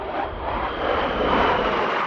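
Aircraft engine noise roars overhead on Guam amid a military buildup. It is a steady, loud, continuous drone with no voices or breaks.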